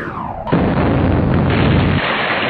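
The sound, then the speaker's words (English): A weapon fired as a test gives a sudden loud blast about half a second in, then a heavy, roaring rumble that holds steady to the end. “Test it for me. I wanna make sure you didn't try to sabotage it. Go on, fire!”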